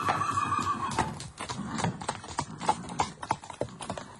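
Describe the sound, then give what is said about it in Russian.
Horses neighing and hooves clip-clopping as a horse-drawn tarantas carriage sets off: a whinny opens, then a run of sharp, irregular hoofbeats picks up. “Затем он сел в тарантас и со странным выражением, точно боясь погони, ударил по лошадям.”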